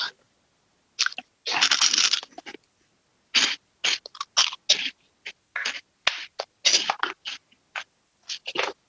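Crunching and chewing of jalapeno-flavoured snack chips during a tasting: many sharp, bright crunch bursts in an irregular rhythm, with no talk.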